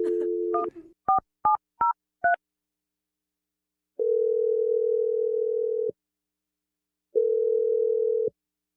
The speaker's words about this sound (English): I'm going to dial it right now.